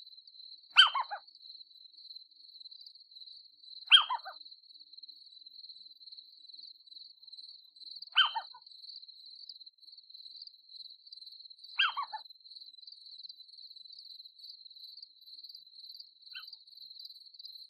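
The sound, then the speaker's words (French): Crickets and grasshoppers trill in a meadow at night, a high, thin, unbroken metallic whine running faintly throughout, with short, louder calls repeating at regular intervals of about four seconds. “Le bruissement lancinant et métallique des régiments de sauterelles, de grillons, de locustes et autres courtières, disséminés par myriades sur les herbes de la prairie.”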